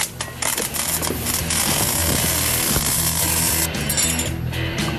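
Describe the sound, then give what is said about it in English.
Welding a gimbal mount onto heavy metal discs during a team build. A dense, harsh crackling buzz runs loud and continuous, with rattling metallic clatter layered through it. “You want to do some welding? I would love to do some welding.”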